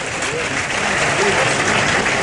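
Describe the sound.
Bullring crowd applauding as the bull dies and the matadors step away, a steady dense clapping that holds loud and even throughout with a faint murmur of voices beneath.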